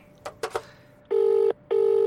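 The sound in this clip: A telephone rings for an incoming call on a secure line: a few short clicks, then two buzzing bursts of steady electronic ring tone separated by a brief pause.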